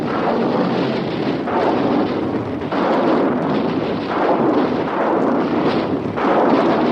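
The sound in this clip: Artillery and rocket batteries firing in a dense, continuous roar of heavy blasts that merge into a loud rumbling wall of noise. It swells in several waves, with no voices.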